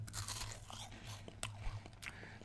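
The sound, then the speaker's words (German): Crisp crunching as someone bites into and chews a lemon Manner wafer. Several sharp, dry cracks stand out over a quiet, grainy chewing texture. “esse jetzt noch eine Mannerwaffel. Gut, mit Zitrone, ne?”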